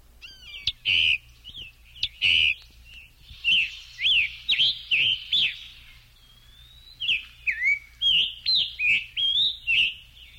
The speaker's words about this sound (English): the song must belong to the scarlet tanager, a bird still common in the North American Midwest. You've been hearing him singing in the background.